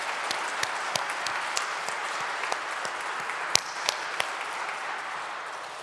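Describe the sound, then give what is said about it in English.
A church audience applauds to congratulate children making their First Communion, a dense, steady stretch of clapping with scattered louder individual claps rising above the wash. “Let's affirm them. Let's give them a big hand. Congratulations.”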